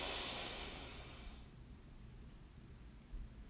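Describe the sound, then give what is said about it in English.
A deep cleansing breath drawn in: an airy, breathy hiss that fades over about a second and a half into near quiet. “we breathe in, hold for a moment, and release with a loud sigh. Okay, we'll do that one time. So breathe in”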